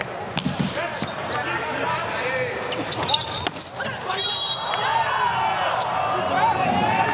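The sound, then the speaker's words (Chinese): A volleyball is bounced before the serve at an international match between Italy and the United States. A few sharp thuds rise over steady crowd noise while people talk throughout. “詹内利的发球”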